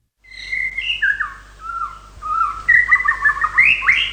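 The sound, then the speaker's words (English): A white-rumped shama sings a run of clear, varied whistled phrases, bright and fluting, with pitch shifting up and down between notes and loudness swelling and dipping as it goes. “Manu Minute in the Song of the White Rump Shama”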